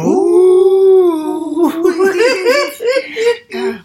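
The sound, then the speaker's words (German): Voices imitate seals howling: one long, steady howled note, then a run of wavering, yelping cries that break into giggly, laughter-like sounds. “Und du kannst super heulen. Ja. Komm, lass uns mal zusammen heulen.”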